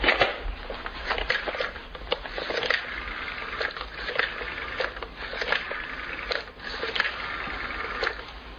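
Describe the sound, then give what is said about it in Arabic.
A telephone is dialed in a radio drama, giving a busy run of crisp, repeated clicks and ticking pulses at a fairly even level for several seconds, with no voices. “ممكن استعمل التليفون قبل ما نتكلم في الشغل؟”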